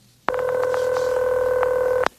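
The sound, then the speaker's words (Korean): Telephone ringing tone on a call to a grandfather that goes unanswered: a single loud, steady electronic tone holding for nearly two seconds, starting and stopping abruptly out of near silence. “제발요 할아버지, 전화 좀 받으세요.”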